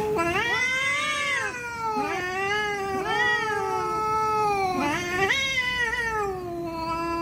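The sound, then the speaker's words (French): A cat caterwauls in a long, loud, continuous yowl, sliding up and down through several wavering, drawn-out wails without pause. “les cris, les feulements de chats, on voit ça sur internet, il y a parfois des... très bizarre. On dirait pas que c'est un chat, mais c'est un chat, si, je vous assure.”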